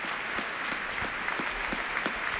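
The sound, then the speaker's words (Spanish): A stadium crowd at a Real Mallorca football match gives an ovation as a player is substituted off, a fairly faint, steady wash of clapping with regular sharper claps standing out. “Vaya ovación, ¿eh? Ovación del público a Galarreta, que ha trabajado muchísimo junto a Salva Sevilla.”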